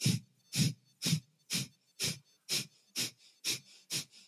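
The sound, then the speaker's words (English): Sharp, forceful exhalations through the nose while pumping the belly during a breathwork exercise. The puffs are rapid, breathy and evenly spaced, about two per second, with no inhales heard between them. “You're going to just exhale through the nose. So it's going to sound like this.”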